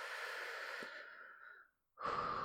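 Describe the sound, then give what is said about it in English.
Deep, slow breathing: a long, soft exhale trails off over nearly two seconds, then a brief silence, and a fresh breath begins sharply. “just breathe for me. Nice, big, deep breath. Slowly.”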